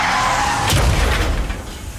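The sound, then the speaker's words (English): A car crash with skidding: a sustained tyre screech gives way to a heavy booming impact, followed by a rumbling, fading tail. “But then comes the crash.”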